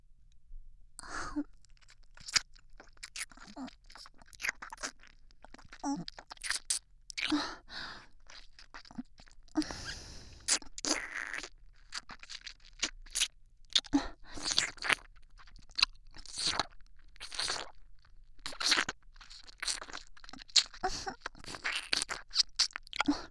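Wet licking and mouth sounds from erotic ASMR ear licking: many soft, irregular smacks and crunchy clicks, mixed with breathy sighs.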